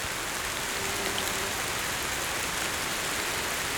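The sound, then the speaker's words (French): Light rain: a fine, steady hiss of small drops falling, soft and even throughout with no breaks and no voices. “une fine pluie éclabousse vos oreilles.”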